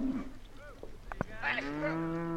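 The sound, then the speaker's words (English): Cattle moo during a cattle drive at a farm near Centennial in southern Wyoming, giving several short lowing calls and then one long, steady, deep moo. “For instance, this cattle drive.”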